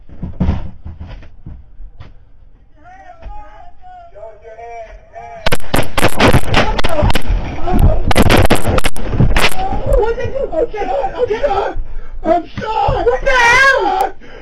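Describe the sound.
Gunshots erupt during a confrontation on a house deck: many loud, sharp cracks burst out after quieter talk, mixed with shouting, screaming and wailing voices.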